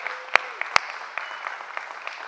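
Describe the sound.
A church audience applauds in steady, sustained clapping at moderate volume. A few sharper individual claps stand out from the crowd.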